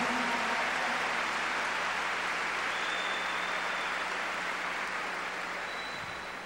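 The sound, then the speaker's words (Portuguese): A church audience applauds during a sermon, a dense steady wash of clapping that stays loud throughout and tapers slightly toward the end, with no voices heard. “Obrigado porque você entendeu, aplauda mesmo.”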